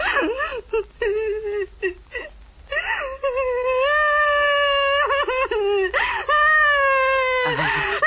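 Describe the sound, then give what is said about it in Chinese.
A person crying in broken whimpers and sobs that swell into a long, sustained, tonal wail, then break again into shorter moaning cries near the end. “你怎么哭了？啊？怎么了？”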